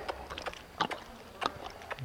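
Hooves of a mare being backed up and squared up before the judge at a horse show: a few soft, irregular clops and knocks, faint and spaced apart.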